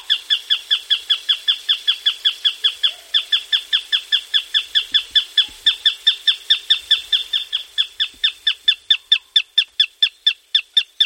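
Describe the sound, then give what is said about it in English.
Song of the Madagascar flufftail, a rail bird: a long, loud run of many rapid, evenly spaced hooting notes, each with a ringing harmonic quality, repeated steadily without a pause. “This is the song of the Madagascar flufftail.”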